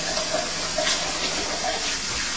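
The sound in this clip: Tap water runs steadily as sticky, slimy food is rinsed under it, a constant, even rush of splashing water with no talk over it.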